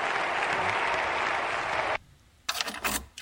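Crowd applause sound effect from the video game Trackmania, dense clapping that cuts off abruptly after about two seconds, followed by a brief lull and a few sharp clicking bursts.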